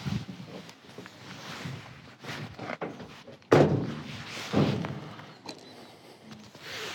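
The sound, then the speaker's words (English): A van door being shut while the van is locked up, heard as a single sharp, heavy thud that stands out from low rustling background noise, followed by a softer knock. “Shall I lock the van up? Probably best. You should lock it, probably, yeah.”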